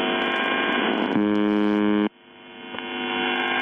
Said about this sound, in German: Auf 4625 Kilohertz, also Kurzwelle, sendet seit den späten 70ern eine Station, die nichts anderes tut, als diese Geräusche auszustrahlen.